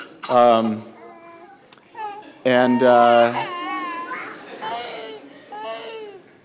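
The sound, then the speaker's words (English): Twin babies crying and fussing over a single pacifier: two loud, wailing cries break out, then give way to quieter whimpering and babbling fuss. “Two little twins here but only one pacifier, and you can see the trouble.”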